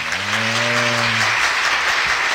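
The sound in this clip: Applause fills the whole stretch as dense, steady clapping, with a held voice-like tone over it for the first second or so.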